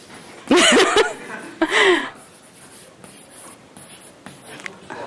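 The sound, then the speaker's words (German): Chalk scratches and taps on a board in short strokes, with two brief bursts of chuckling laughter near the start before the writing continues alone. “Ich schreibe das mal auf, damit wir es nicht vergessen.”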